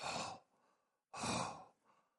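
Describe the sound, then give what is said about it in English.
A human voice imitates a lion breathing at night: two loud, rough, airy breaths, each trailing off into a softer rasp, with a short gap between them. “if you've ever heard a lion breathing at night,”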